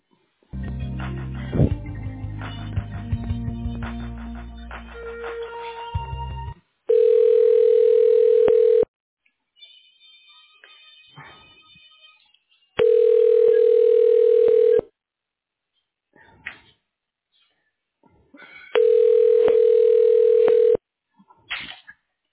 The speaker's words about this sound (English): I can transfer you to his office. I'm not really sure if he's there, though. I can send you down there.